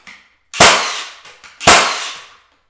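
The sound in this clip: A nail gun drives nails into a board with two loud, sharp bangs about a second apart. Fainter clacks fall between the bangs, and each shot rings briefly before dying away.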